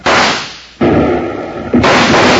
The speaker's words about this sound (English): Suddenly, Basher and his gun slicks appeared from the door of the Red Gopher Dance Hall and opened fire on Bill and Jingles.